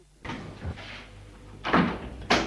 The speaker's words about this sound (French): On a frappé à la porte.